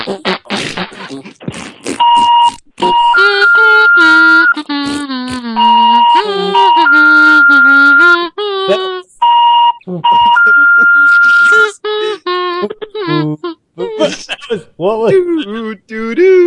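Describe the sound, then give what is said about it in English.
Kazoo buzzing in imitation of an alarm, with harmonic-rich wavering tones that swoop up and down, interleaved with a steady high electronic beep that starts and stops repeatedly, loud throughout. “I was trying to play it back on my kazoo.”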